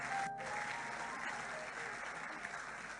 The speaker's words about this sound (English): If you want to clap, you can clap.